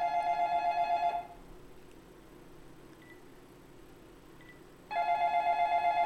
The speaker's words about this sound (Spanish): por acá estamos recibiendo ya la primera llamada, así que vamos a corresponderle en este momento